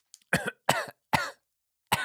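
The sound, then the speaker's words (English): A person coughs four times in short, dry bursts, fairly faint and alone with no talk, the first three closely spaced and a longer pause before the last. “Sorry. When I lie, I just cough.”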